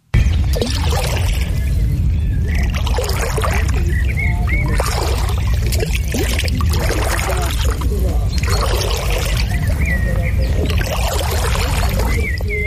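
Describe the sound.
People swim in a lake. Water sloshes and splashes loudly and continuously, surging in regular strokes about every two seconds.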